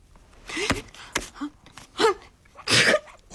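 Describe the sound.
A person sneezes. A few short breathy gasps and sniffs build up to a loud, forceful burst near the end.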